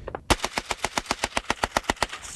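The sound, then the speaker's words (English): Heavy machine guns fire during Russian army target practice by the Tamanskoye Motorized Rifle Division, a steady, rapid string of many loud, booming shots in one sustained burst. “soldiers fire heavy machine guns and rocket-propelled grenades during target practice as officers shout commands.”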